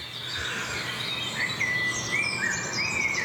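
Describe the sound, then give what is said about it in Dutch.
A blackbird sings at dawn, its clear fluting whistled phrases rising in the second half over a steady, soft background hiss. The song stays faint throughout, with no voices. “Ja, de merel begint nu echt te komen.”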